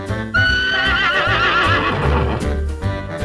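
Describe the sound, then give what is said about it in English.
A horse neighs loudly in one long, shaky whinny that quavers up and down in pitch for about three seconds. The call is heard on its own, with no talking. “Horse.”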